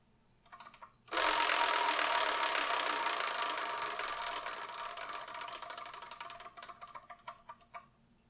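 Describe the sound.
A spun wheel whirs into a fast, dense rattle of clicks after a few soft ticks. The rattle gradually thins into separate ticks that slow toward a stop.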